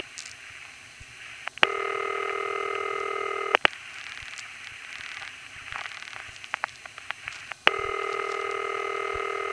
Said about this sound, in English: And after the recording, we hear another standard City Ring from Richmond Hill, Queens.